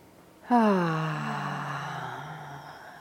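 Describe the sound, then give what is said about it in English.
A deep breath let out as a long voiced sigh during a group session on the Buddhist Eightfold Path. It begins abruptly, dips slightly in pitch, then settles into a soft, steady tone that slowly fades over about two and a half seconds. “Okay, so take a deep breath.”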